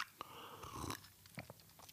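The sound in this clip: Tea sipped from a cup: a soft slurp, then a few small clicks and swallowing noises, all quiet and with no talking.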